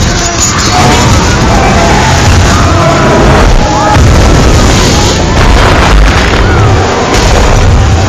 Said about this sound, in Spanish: Sus ojos se ponen en blanco y explota.